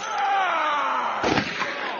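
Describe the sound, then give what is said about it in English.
Small-caliber hand blaster fire breaks out in a bar: a sliding electronic tone falls in pitch, then a sharp burst hits, followed by a short rattling tail. “Holy shit! Three blasters. Small caliber hand blasters.”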